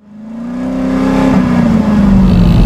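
A car engine revving from inside the vehicle, a loud, continuous growl that builds in volume over the first second, climbs slightly in pitch, then sags a little toward the end.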